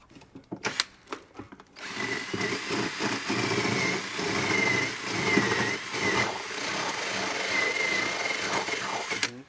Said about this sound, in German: Ich muss ein Loch aufbohren, wo der Überrollbügel noch angeschraubt wird